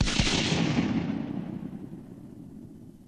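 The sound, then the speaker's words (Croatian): A gunshot in an audio drama of Gulliver's Travels, set in Lilliput: one loud, sharp blast followed by a long, rumbling decay that fades steadily. “Jako je bučan, bojim se da bi vas mogao protresti. Pucaj kad kažem!”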